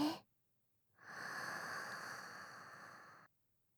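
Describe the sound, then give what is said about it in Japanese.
A single long, deep inhale through the nose, a smooth breathy hiss lasting a little over two seconds, heard alone after a short silence and stopping abruptly. “まず大きく 鼻から吸って、”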